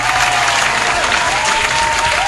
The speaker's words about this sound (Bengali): তাদের জন্য একটা জোরে জোরে জোরে হাততালি